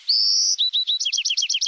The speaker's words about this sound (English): It's fully developed and unique to that male. Each adult male Buick's Wren has his own set of songs.